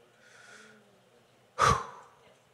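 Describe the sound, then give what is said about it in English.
Heavy breathing as a preacher catches his breath during a sermon: a soft, drawn-out breath, then one loud, sharp gasping exhale that fades away. No talk is heard over it. “I am not leaving this building until I get my breath back.”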